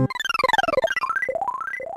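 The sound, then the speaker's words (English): Psychic shield move sound effect from the Super Nintendo game Earthbound (Mother 2): a rapid run of bright electronic tones stepping downward, then several quick rising arpeggio sweeps, loud and alone. “That's one of the psychic shield moves from the Super Nintendo game Earthbound, also known as Mother 2.”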